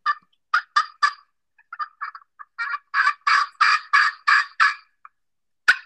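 A homemade turkey call is played in a rhythmic run of many short, raspy yelps, a quick group of four first, then a steadier, louder string of clucking calls, ending with a single sharp click.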